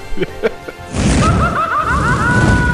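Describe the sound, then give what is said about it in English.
A comic 'hot take' sound effect: a few short thumps, then a sudden loud crashing burst with a warbling, wavering tone riding over it until the end. “Hot take sound.”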